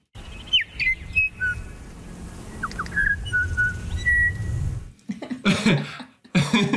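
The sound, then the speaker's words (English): Female bellbird song on Burgess Island: a run of short, clear, musical piping notes at varied pitches over soft background noise, followed by a few harsh, noisy bursts near the end. “So this, just some examples of how musical bellbird song can be. This is on Burgess Island, where the females all sing something that's vaguely related to happy birthday kind of sound.”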